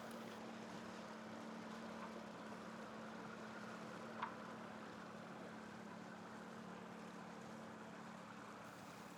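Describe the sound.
Faint, constant rush of engine and water heard aboard a ferry on a sea crossing of nearly three hours, with one brief click partway through.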